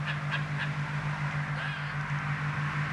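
Birds caw, likely crows, with three quick harsh calls early on and fainter ones later. The calls are faint over a steady low hum and constant background noise.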